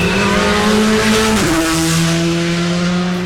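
A rally car engine roars loud and continuous as it accelerates hard out of a bend on a stage, with one sudden dip in engine pitch midway before the steady drone carries on.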